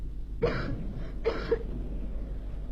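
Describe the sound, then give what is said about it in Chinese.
A gravely ill girl coughs twice, two short, rough bursts about a second apart. They are fairly faint over a low steady hum, with no talking. “海伦的咳嗽声声都震动着我那颤抖的心，这咳嗽声比雷声还要响。”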